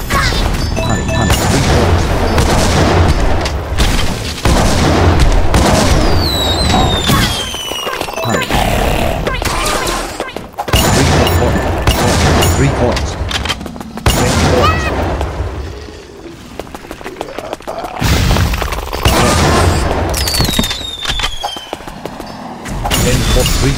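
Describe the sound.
A big mine blows up in a video game, giving loud booming crashes and rapid blasts one after another, with dense layers of game effects filling the whole stretch.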